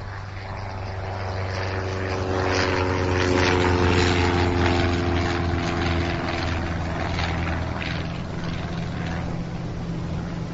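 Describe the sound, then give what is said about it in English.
Small propeller airplane engine in flight, a loud, continuous droning hum with a buzzing propeller whine that holds steady throughout. “Fear of flying? The last time I saw a plane this size, Ms. Minchell, it was in an Airfix box.”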